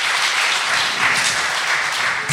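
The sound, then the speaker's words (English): Audience applause for pupils at a school gathering, a dense, steady wash of clapping that holds at an even loudness for the whole stretch with no break or clear end. “Do you want to give them a clap?”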